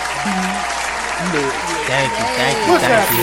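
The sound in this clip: Audience applause, a steady wash of clapping that runs under a voice talking throughout.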